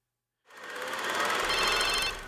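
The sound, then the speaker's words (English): A cell phone ringing in a film scene, its bright, buzzy ringtone starting abruptly after a short silence and sounding steadily to the end, with no voices. “The next morning, Craig is awoken by his cell phone ringing, and he answers it, and it's Dragon.”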